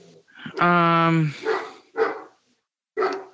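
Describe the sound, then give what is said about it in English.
A dog barks a few times in loud bursts, one drawn-out and tonal, mixed with people talking. “One of my dogs is barking.”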